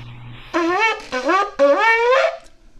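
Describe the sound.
Three broken shevarim blasts on a ram's horn shofar, short buzzy horn calls in quick succession, each scooping upward in pitch, the last one held a little longer than the first two.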